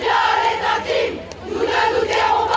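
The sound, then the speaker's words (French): Protesters chant anti-Polanski slogans in unison outside Salle Pleyel in Paris on the night of the César awards. The loud rhythmic crowd chant rises and falls in repeated waves. “Voilà, il y a des chants anti-Polanski.”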